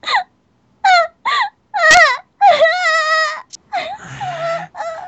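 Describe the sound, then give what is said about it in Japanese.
A person crying on demand, wailing and whimpering in many short, tonal bursts separated by silences, then longer drawn-out wails with a wavering pitch. “笑うのか泣くのかどっちかにしろよ。 じゃあ泣く。”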